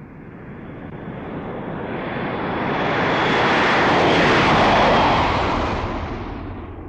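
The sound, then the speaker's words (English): An airplane's engine roar passes by, a loud, broad rushing noise that swells gradually to a peak midway and then eases off, with no voices. “Listen, this is a plane.”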